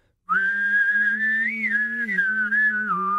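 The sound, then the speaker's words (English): A person whistles a wavering melodic line while sounding a low hummed undertone at the same time, the two tones shifting together, loud and steady with no talk. “I've also been trying to perfect, like, getting an undertone and a top whistle tone, like doing a”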